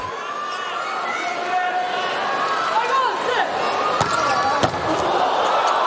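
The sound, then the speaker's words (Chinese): Volleyball serve during a USA vs Japan match: two sharp ball impacts stand out near the end over steady arena crowd noise, with commentators talking throughout. “好发球，发球又拿到一分”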